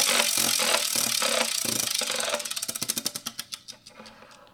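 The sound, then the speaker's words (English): A prize wheel spins with rapid clicking, at first dense and blurred, then the ticks space out and slow steadily as the wheel winds down. “let's spin this wheel and see where it landed.”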